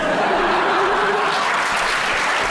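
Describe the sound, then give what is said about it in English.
Live audience clapping at a stage show in Edinburgh: a thick, even wash of many hands clapping together at a loud, steady level throughout. “Honestly, I love that you clap.”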